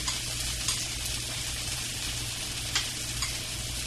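Food being stirred in a sizzling frying pan, with a steady hiss of frying and a few louder scraping stir accents as the pieces are coated.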